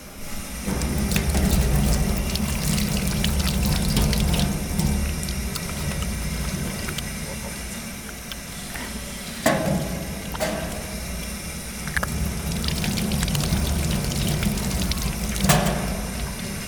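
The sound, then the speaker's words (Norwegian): Running water from taps at a row of sinks as hands are washed with soap: a steady rushing, splashing stream that carries on throughout, broken by a few brief knocks and clunks. “ansamling av vasker med rennevann og ulike såpestykker hvor det står Sissel Tolås på. Så jeg tenkte at vi begynner med å vaske hendene våre og snakke litt om hva, hva vi lukter.”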